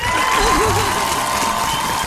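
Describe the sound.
Applause and cheering from an audience celebrating a psychologist who has officially opened her office: continuous clapping mixed with crowd noise and a warbling cheer from one voice early on.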